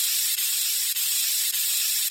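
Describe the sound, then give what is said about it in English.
Steady hissing spray from a paint sprayer applying white paint to a tree outdoors in shifting wind. The hiss is loud and continuous, broken by a few brief dips. “Well, the wind keeps changing. They ought to make these paint sprays with a weather vane on them.”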